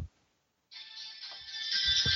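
A phone rings after a short silence: a steady electronic ringtone that starts abruptly and keeps sounding loudly to the end, with a few soft low thumps underneath.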